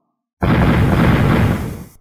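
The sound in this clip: A deep, dull explosion heard alone as a single sudden, loud, rumbling blast that holds for about a second and then tails off quickly.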